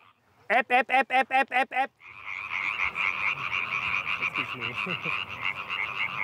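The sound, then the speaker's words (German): About thirty tree frogs croak at night. A rapid burst of seven loud pulsed croaks gives way after a short gap to a dense, continuous chorus. “Ja, faszinierend finde ich immer so, es ist Stille, einer fängt an und 100 kommen dazu. Etwa 30 Laubfrösche performen heute.”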